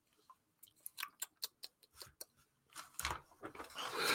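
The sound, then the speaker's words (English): A small pad of paper being handled, giving many short, crisp rustles and taps in an uneven rhythm that grow denser toward the end. “I'm going to take my little pad of paper,”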